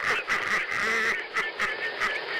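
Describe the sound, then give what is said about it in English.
A mother goose honks at a man as he runs to his car and drives off. Her harsh, nasal calls come in a rapid, uneven series of short bursts. “The little baby Mother Goose won. She's talking to him as he's driving”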